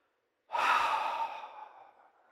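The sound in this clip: A voice imitates the Hebrew name of God as one soft, breathy exhalation that starts abruptly after a brief silence and fades away over about two seconds.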